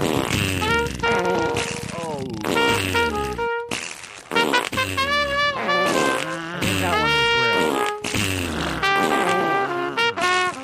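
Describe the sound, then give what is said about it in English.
Fart sound effects layered under a Christmas song: buzzy, sliding tones blend with continuous tuneful music, loud throughout, with one short break partway through. “Oh, play a beautiful Christmas song. Can you do it, but do it more? Yeah, play, and then lay fart music under the Christmas song.”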